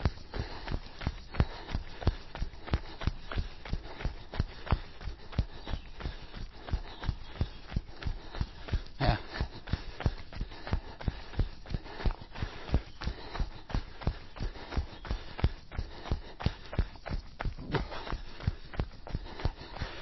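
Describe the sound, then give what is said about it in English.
Footsteps of someone running up a hill during interval training: many quick, evenly spaced footfalls in a steady rhythm throughout, fairly quiet. “I'm just going to walk a little bit because I'm running up a hill.”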